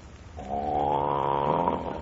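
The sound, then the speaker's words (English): A child snores loudly, one long, rasping, buzzing snore that swells and holds for over a second before trailing off. “Who's snoring like that? Good heavens, that's Snooks. I can't sleep with that racket.”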